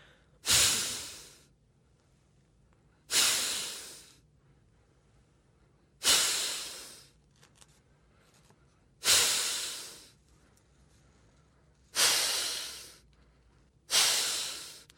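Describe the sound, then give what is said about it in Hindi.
Kapalbhati yoga breathing done seated in a car: six forceful, hissing exhalations, each a sharp loud burst that quickly fades, spaced roughly three seconds apart with quiet in between. “सांस बाहर निकला पेट अंदर गया सांस बाहर पेट अंदर बार बार इसी प्रकार इस अभ्यास को हम करेंगे”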